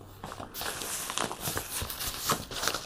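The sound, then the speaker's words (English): Crinkling of a bubble envelope as a comic book is pulled out of its packaging, with irregular soft rustles, crackles and scrapes that are fairly quiet and continuous. “Nice packaging. Take it out. No, and you put it in a bubble envelope.”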